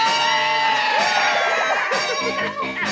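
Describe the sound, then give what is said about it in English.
An audience screams loudly on cue at a secret word during a Christmas TV special, a dense, sustained roar of shrieks and whoops that dips briefly near the end. “whenever anyone says a secret word, scream real loud.”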